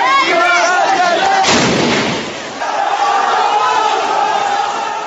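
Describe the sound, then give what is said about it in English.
A rocket strike on a street demonstration in Rastan, Syria, with gunfire and a crowd: loud, continuous shouting broken by one heavy blast that becomes a broad roar, after which the shouting resumes. “This was the scene in Rastan earlier in the weekend when a rocket ploughed into a demonstration in the town.”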